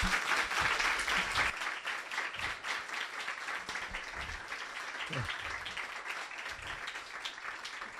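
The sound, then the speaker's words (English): An audience at a magazine launch event gives a round of applause for the contributors. Dense, sustained clapping starts strong and tapers slightly over eight seconds. “please give a round of applause to our.”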